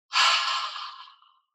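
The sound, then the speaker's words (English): An aspirated 'HA' breath from a breathing exercise: a single breathy exhale, loud at the onset and slowly fading over about a second, with no talk. “And the sound for this one is HA, an aspirate. Sounds like this.”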